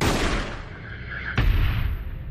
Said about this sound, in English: The diversion gunshot towards the cliff signals the go-ahead.